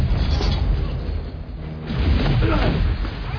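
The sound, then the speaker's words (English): A phaser blast striking a starship: a dense, rumbling roar of booming impacts that runs loud throughout, thinning briefly midway before surging back to full strength. “Phaser blast, unknown origin. Raise shields.”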